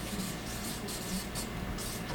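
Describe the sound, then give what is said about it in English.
Scratchy writing on a board during a lecture, a few faint rasping strokes over a steady background hiss, with no talk. “I'm going to write that up here on the board in case you don't know that word.”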